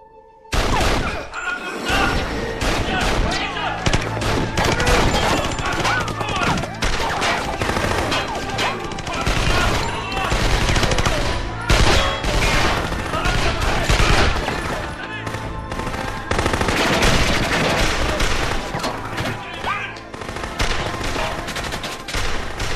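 Heavy gunfire, including machine guns, fills the whole clip as dense rapid bursts and sharp loud shots crack almost without pause during an assault on armed guards.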